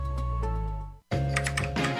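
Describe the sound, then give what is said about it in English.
Computer keyboard keys are tapped to enter a zip code, giving a few quick clicks that are partly masked by steady, loud background music. “Just typed in my zip code and boom.”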